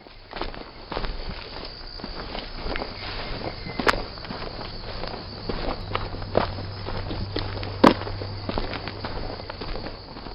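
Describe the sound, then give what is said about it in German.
Footsteps walk along a pilgrimage path of grottoes and Stations of the Cross that begins at a pilgrimage church. Many steady, even steps run through the whole clip over a low hum, with a couple of sharper knocks standing out. “Und jetzt endlich gehe ich auf den Grotten- und Kreuzweg.”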